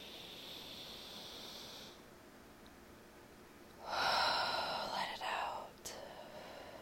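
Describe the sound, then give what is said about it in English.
A deep breath drawn in during a morning breathing exercise: a long, airy rush of breath of under two seconds, moderately soft, with a fainter steady hiss before it. “Let's take a deep breath here.”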